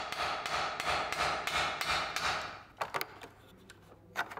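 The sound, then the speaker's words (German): A smith's hammer peens the edge of a scythe blade about 65 cm long, thinning it out. A steady run of bright, ringing metallic strikes is followed by a few lighter, quicker taps. “Das Dengeln oder Klopfen, ein wichtiger Arbeitsschritt.”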